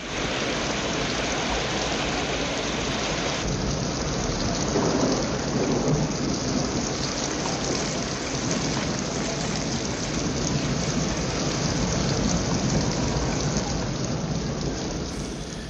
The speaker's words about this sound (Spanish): Que no llovía un poquitín como el primer día, o el segundo, ya no recuerdo, pero es que aquí llovía a mares,